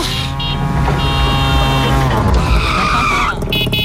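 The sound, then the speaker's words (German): Tuk-tuk auto rickshaw engine used as a station sound effect: a loud, continuous buzzing drone with bright, shifting tones that bend in pitch, like revving and squealing, sustained throughout without pause. “Und mit dem Tuk-Tuk kommt ihr zu Tomorrowland. Ja. Und das Tuk-Tuk klingt ja so.”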